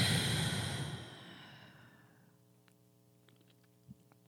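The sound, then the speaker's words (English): A deep breath is released in a guided breathing exercise: a long, breathy exhale starts loud and fades away over about two seconds, leaving a faint steady hum and a soft click near the end. “Take one deep breath with me. In through your nose. Hold it. Release.”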